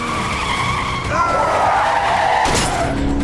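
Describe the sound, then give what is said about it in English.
A car skidding and crashing during a chase as its driver is grabbed: loud tires screeching with wavering pitch over a steady roar, ending in a harsh burst of noise. “Marika grabs Dubaku's driver, causing a spectacular crash.”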